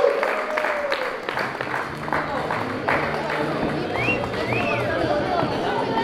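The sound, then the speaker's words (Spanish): An audience applauds to welcome a band before an acoustic concert at a cultural centre in San Pedro de la Paz. Dense, steady clapping runs throughout, with a couple of rising whistles and voices mixed in. “así que lo recibimos con un fuerte aplauso mientras ellos preparan sus salidas.”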